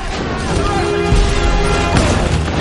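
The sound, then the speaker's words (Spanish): An explosive detonates in a comedy action film scene with a loud, dense, rumbling blast. Deep low booms surge near the middle and again shortly after, and the noise stays heavy throughout. “El gigantón les observa mientras un explosivo detona.”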